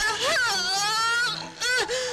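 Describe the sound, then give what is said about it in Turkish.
A woman screams and wails while in labor, giving birth to a child: two long, loud, high-pitched cries with wavering, bending pitch, separated by a short break. “bağırma! Bağırsın, bağırsın!”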